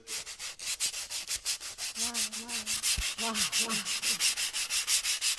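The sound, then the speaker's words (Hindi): Sandpaper rubbed rhythmically as a percussion instrument to imitate a train, steady rapid back-and-forth strokes forming a continuous chugging pulse of many even scrapes. “Sand paper है ये, वो instrument”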